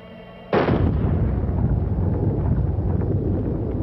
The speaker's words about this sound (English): With this high-powered 30-caliber rifle, we're going to try to blast open this Master Lock model number 15.